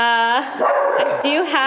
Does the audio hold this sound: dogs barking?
yes

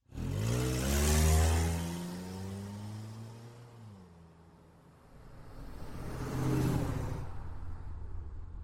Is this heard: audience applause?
no

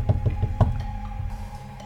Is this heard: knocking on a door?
yes

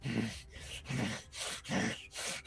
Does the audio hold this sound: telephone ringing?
no

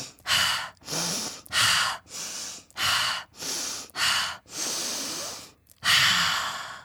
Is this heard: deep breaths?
yes

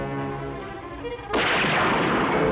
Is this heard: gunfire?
yes

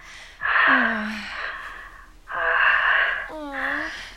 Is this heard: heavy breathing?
yes

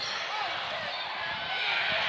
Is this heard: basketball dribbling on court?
yes

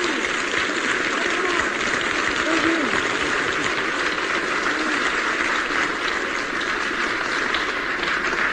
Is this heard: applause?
yes

